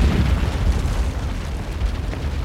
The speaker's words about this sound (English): At 1:45 a.m., as the club is in full swing, the 2-kilogram bomb explodes.